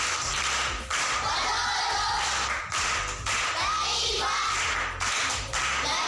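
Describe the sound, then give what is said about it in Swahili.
Children clap together for everyone in dense, loud bursts of clapping, broken by a few brief pauses. “Makofi kwa wote.”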